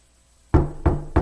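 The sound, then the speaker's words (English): Three firm knocks on a church door, evenly spaced about a third of a second apart. Each is a dull, low thud heard alone after a short silence. “Knocking, wanting to get in.”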